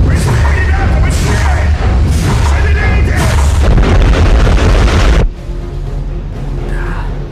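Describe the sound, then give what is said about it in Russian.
A ship colliding with an iceberg in an audio drama is rendered as a loud, sustained booming rumble that drops off suddenly after about five seconds into a quieter low rumble. “нос корабля начинает медленно поворачиваться влево. Сейчас столкнемся! От столкновения корабль начинает сильно трясти.”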